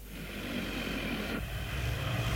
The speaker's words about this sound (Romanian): Gata, putem decola. Motorul merge bine.